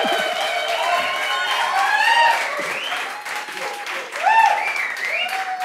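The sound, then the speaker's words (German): A live audience in Winterberg applauding and cheering: steady, loud clapping mixed with shrill whistles and voices calling out throughout. “Ihr dürft gerne klatschen. Ja, ihr dürft gerne Geräusche machen.”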